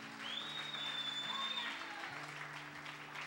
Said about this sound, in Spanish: Pues denle un aplauso al Señor con todo el corazón.